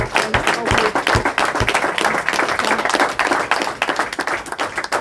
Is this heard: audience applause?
yes